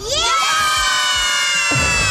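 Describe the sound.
More than ten children in matching T-shirts shout together loudly inside a small van, one long sustained cheer of many high voices blending and holding steady for about two seconds.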